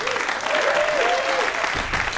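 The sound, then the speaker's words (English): Sustained applause fills a quiz-style game as a pair is awarded a point: a dense, even clatter of many clapping hands that holds at a steady, fairly loud level throughout with no clear break. “applaud now”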